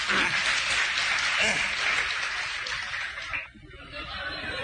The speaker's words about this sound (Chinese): 各位鼓鼓掌，让他来了。